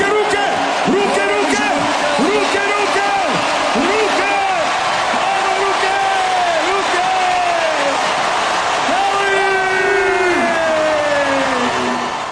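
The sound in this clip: Fans cheer in central Zagreb as their team arrives, flown in with an escort of MiG jets. A continuous crowd roar runs throughout, with loud shouted calls rising and falling above it.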